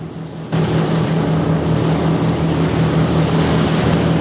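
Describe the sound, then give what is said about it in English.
Two sleek, square-bowed boats sitting low in the water speed side by side toward the coast. Their engines cut in abruptly near the start and then hold a loud, steady roar with a low droning hum underneath. “Sitting low in the water, the two sleek square-bowed craft speed side by side towards the coast.”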